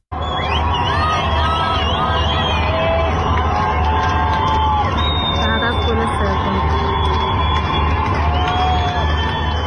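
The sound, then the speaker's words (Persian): A crowd in the Chitgar district of Tehran celebrates England's third goal: loud, continuous cheering, whoops and shouted chanting of protest slogans blend into a dense, sustained roar of many voices. “صدای از یک شادی بعد از گل سوم انگلستان منتشر شده که مربوط به شهرک چیتگر تهران هست که هم صدای شادی از هم شعار مرگ بر دیکتاتور.”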